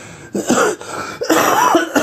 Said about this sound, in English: So that's the cough I've had, I think, since Monday.